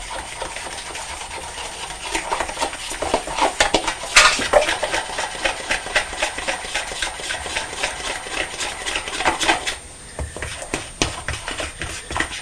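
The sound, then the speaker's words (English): Icing being stirred in a bowl to beat out the lumps before it goes on biscuits: a busy, continuous clinking and scraping of a utensil against the bowl, steady throughout and easing off near the end. “we've got to put the icing on the biscuits first. Mixing it up. Get all the lumps out.”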